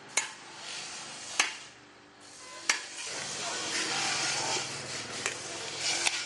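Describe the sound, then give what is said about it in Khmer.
A metal grater rasps over the meat of a halved coconut, scraped out for making coconut products. The repeated rough strokes are broken by a few sharp knocks. “គេពុះដូងជា2ហើយគេយកខ្នោះមកកោសយកសាច់ដូង”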